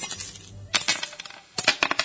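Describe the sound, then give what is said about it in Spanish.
Gold coins clink and jingle in two bright bursts of metallic chinks separated by a short pause, with no voices. “y allí estaban las monedas de oro.”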